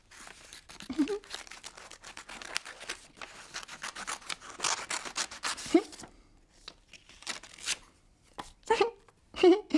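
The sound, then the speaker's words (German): Scissors snipping, with many short, crisp cuts in irregular bursts and quiet gaps, and brief voice sounds between some of the cuts. “Eine Schere. Das ist eine Schere. Eine Schere? Mit der Schere kann man schneiden.”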